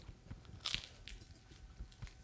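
Biting and chewing on an egg pie, heard as a few crisp crunches and soft, wet mouth sounds, quiet and without talk.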